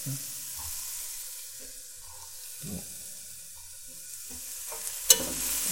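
Onions frying in a pan give a steady, soft hiss of sizzling, broken by a few low scraping stirs and a sharp clack near the end, with no talk.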